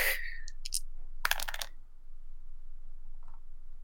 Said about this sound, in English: Time to roll a shit ton of dice.